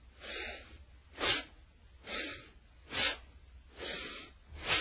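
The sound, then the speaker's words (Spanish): Bellows breathing, forceful inhales and exhales through the nose with the mouth closed during a breathing exercise, heard as a few sharp, hissing breath bursts in a steady rhythm, fairly faint with quiet gaps between them. “Efectivamente es un fuelle. Es un fuelle, se hace con la boca cerrada, inhalando y exhalando por la nariz.”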